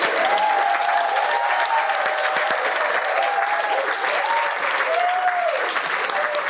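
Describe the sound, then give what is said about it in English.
Audience applause welcoming a speaker introduced at a Debtors Anonymous meeting, dense and sustained clapping from a crowd that holds a steady level throughout. “Could you give Bill Dee a hand?”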